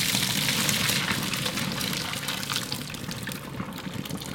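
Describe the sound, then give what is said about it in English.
Cold tap water runs steadily over cooked noodles for a kugel as they drain and rinse in a colander. It is a constant, full rushing hiss with a light splatter, and no one speaks. “I just saw you drain the noodles using a colander, and you then put the noodles under some cold water.”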